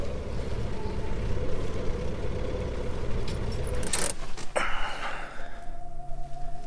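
A car is being parked: a steady low engine hum runs, then a few sharp clicks and knocks come before the engine falls quiet.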